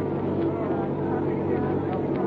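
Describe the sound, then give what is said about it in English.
A car approaches on a narrow, muddy road in the rain, its engine a low, steady rumble that holds without clear change. “there's a car approaching.”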